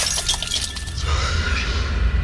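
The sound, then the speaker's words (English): A glass of holy water shatters against a wall during an exorcism, a loud sharp crash that breaks into pieces, followed by a fading tail of scattered glassy rattle. “The glass of holy water hurled past my face and smashed against the wall into pieces.”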